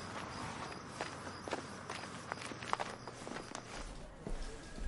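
Firm footsteps as someone carrying a skateboard under the arm walks away from a hotel outside, with steady, even steps over a noisy background.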